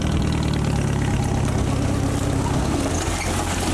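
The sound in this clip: Steady engine drone of a small farm vehicle used on narrow plantation paths to collect betel nut and latex. It runs continuously with an even, low chugging rumble throughout, and no voices are heard.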